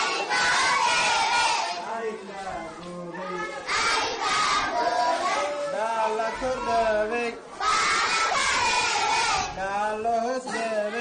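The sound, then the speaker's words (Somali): Hundreds of children, orphans and street children, girls and boys, shout together at a care centre in Mogadishu, a loud continuous roar of young voices that rises and falls in repeated waves. “codkan aad maqlaysaan waa caruur boqolaal ah oo isugu jira agoon iyo ciyaal derbi, waxayna ka kooban yihiin gabdho iyo wiilal”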